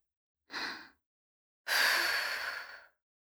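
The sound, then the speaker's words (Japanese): Soft breaths blown over a spoonful of rice to cool it, a short puff followed by a longer, steady exhale, with silence before, between and after. “大丈夫。私がフーフーしてあげるから。よーし、スプーンにご飯をすくってっと。”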